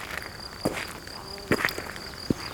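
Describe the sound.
Crickets chirp in lush greenery with flowers, a steady high trill running throughout at a moderate level, with a few short soft knocks scattered over it.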